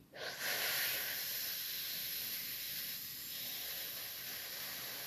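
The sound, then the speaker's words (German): A breath is drawn in through a drinking straw during a breathing exercise, as one faint continuous airy hiss. It rises quickly at the start and then holds steady for several seconds, with no talk. “Durch den Trinkhalm einatmen,”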